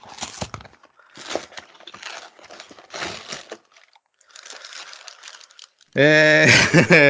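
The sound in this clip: Crinkling and crackling of packaging as a parcel holding brown envelopes is opened, in several irregular rustling bursts separated by short pauses, followed by a person speaking at the end.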